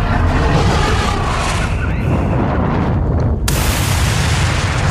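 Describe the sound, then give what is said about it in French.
An explosion sound effect standing for the Big Bang: a loud, dense, continuous roar of deep rumbling noise that fills the whole stretch. A brighter hiss surges in near the end. “Il y a eu le Big Bang.”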